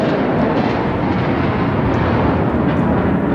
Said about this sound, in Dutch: Dit is het geluid van een F-35 die landt. Ja, dat hebben we dagelijks een aantal keren.